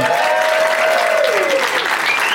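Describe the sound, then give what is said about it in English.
A studio audience applauds as guests come out, including a returning game winner. The clapping is dense and steady for the whole stretch, loud and even, with no voices heard above it. “Please give a big, warm welcome to returning game winner Clare Kramer and Lauren Lapkus and Bert Kreischer.”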